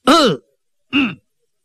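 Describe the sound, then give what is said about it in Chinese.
A storyteller's voice imitates a man's cough with two short, throaty coughs. The first is longer and stronger, and a brief silence separates them. “海瑞咳嗽了一声”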